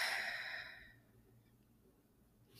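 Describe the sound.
A long, sigh-like exhale released as part of a guided deep breath. The soft breath fades gradually into near silence and is heard alone.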